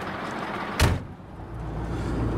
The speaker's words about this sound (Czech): Přijelo velké nákladní auto a já do něj nastupuju po skupcích.